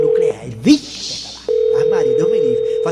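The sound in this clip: A telephone call being placed gives a steady mid-pitched line tone that cuts off briefly while a voice speaks, then resumes and holds continuously to the end.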